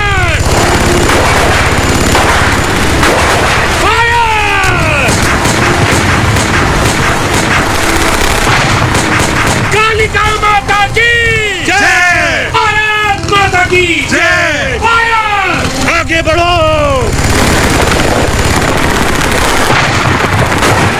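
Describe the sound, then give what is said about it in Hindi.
Gunfire in a battle scene: many rapid, loud shots and bursts fire continuously throughout, with shouting voices rising over the shooting at several points. “Fire!”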